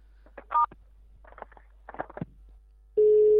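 A telephone busy tone sounds after the receiver is hung up on the other end: a steady, loud mid-pitched tone starts abruptly near the end, preceded by a brief keypad beep and a few faint broken sounds on the line.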